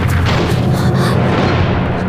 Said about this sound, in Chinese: 姐，前面有枪声，应该是我们的人跟鬼子交上手了，我们快走吧。